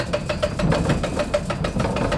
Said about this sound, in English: Harl turns a large metal crank one time around to increase the water flow to the wheel and get the milling process started.